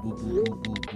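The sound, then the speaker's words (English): A voice imitates group chat notification sounds with a quick string of short, clipped vocal blips. “Do you hear that? That's the sound of the group chat going off, so it's time to start the show. It sounds like this today.”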